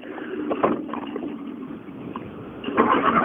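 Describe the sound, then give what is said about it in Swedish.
The engine of an Escort rally car hums steadily as it rolls into the finish of a rally stage, growing louder and rougher toward the end. “Ytterligare då en Mats Jonsson Escort rullar in i mål.”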